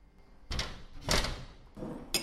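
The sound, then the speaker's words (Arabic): A garden door being pushed shut: a few faint, dull scraping thuds spread across the moment, ending in a short sharp click. “سكروا سكروا باب جنيني.”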